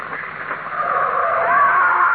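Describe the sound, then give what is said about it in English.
A car skids with a loud, sustained screech of tires that holds steady and swells slightly over about two seconds, with no talk, as a vehicle bears down on people in a dramatized scene. “Come on, watch out. There's a car coming.”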